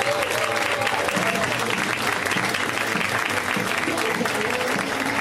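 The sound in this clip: Audience applause for a comedian being introduced on stage: a dense, steady wash of clapping that holds at an even loudness for the whole stretch.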